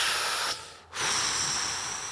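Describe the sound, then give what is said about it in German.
A voice imitates a long cigarette inhale and exhale: a drawn-out breathy hiss, a brief break, then another long hissing breath, quiet and without words. “Und immer so ganz, so ganz viel zu lange einatmen, und viel zu lange ausatmen.”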